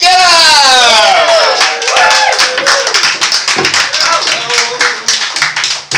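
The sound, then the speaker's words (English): Audience applause at a comedy show rises as the first act is called to the stage. A vocal whoop carries over the opening, then scattered, uneven claps and taps continue from the crowd. “Give it a round of applause.”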